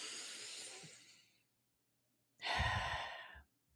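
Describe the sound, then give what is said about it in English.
Two long, breathy breaths during a guided deep-breathing exercise, separated by a silent pause. The second breath is stronger than the first, and both are soft and unvoiced. “You can breathe in. Let's take one more deep breath.”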